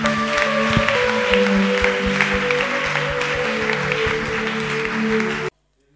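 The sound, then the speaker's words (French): Applause for children during a church healing and deliverance service: steady, dense clapping with sustained musical tones underneath, holding at an even level before cutting off abruptly near the end. “Acclame pour ces enfants.”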